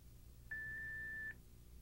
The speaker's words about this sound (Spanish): Después de escuchar el tono.